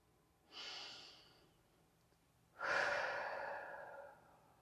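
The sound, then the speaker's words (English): Two deep breaths: a soft inhale through the nose, then after a short pause a longer, louder exhale through the mouth. The breathing is quiet and airy, with no talk. “let's take a couple of deep breaths. Let's breathe in through your nose and exhale through your mouth.”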